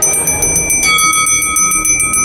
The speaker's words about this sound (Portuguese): Bato meu sino.